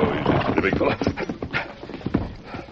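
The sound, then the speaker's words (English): Hooves clip-clop as a horse is ridden up a hill to join another rider, a run of uneven, fairly loud hoofbeats that carries through the whole stretch. “Tonto was watching from a hill when the Lone Ranger rode up to join him.”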